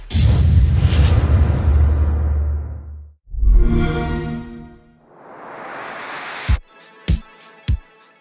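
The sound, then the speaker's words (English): The Xbox One X console startup opens with a deep whooshing rumble, then a bright ringing tonal swell. A rising wash of hiss follows, and the sequence ends with three sharp, punchy hits, loud and with no voices. “That was the Xbox One X startup sound.”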